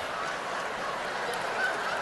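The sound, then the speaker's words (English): A voice imitates a live chicken with nasal, honking squawks, fairly faint and heard alone. “Wow, you just turned Sichuan chicken into a live chicken. That's very good.”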